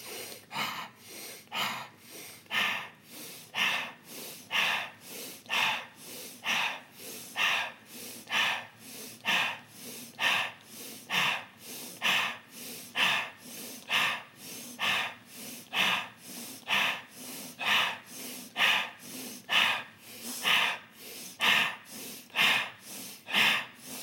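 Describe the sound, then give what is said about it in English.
Quick, rhythmic breathing in through the nose, filling the stomach, and out through the mouth: many loud, evenly paced breaths repeat in a steady cycle with no talking. “So in nose, out mouth. So it's and a little bit quicker thing. And I want you to breathe into the stomach when you breathe through your nose. So in through the nose, expand the stomach on the breast. So watch.”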